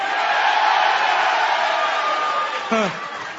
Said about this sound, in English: But if I talk about beating John Cena,